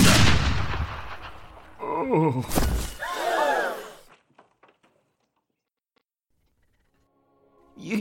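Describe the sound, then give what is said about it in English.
A single loud gunshot bursts out and decays over about a second, followed by short voiced groaning sounds and then near silence with a few faint ticks. “You actually shot him.”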